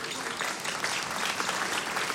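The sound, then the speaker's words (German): Steady audience clapping, a moderately quiet, even wash of many hands that holds at the same level throughout, with no voices over it. “Die müssen jetzt nicht jedes Mal klatschen, wenn sie was verstanden haben.”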